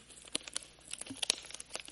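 Crinkling and tearing of wrapping paper as a gift package tied with a ribbon is opened. Quiet, irregular rustles and crackles are broken by a few sharper snaps, with no voices.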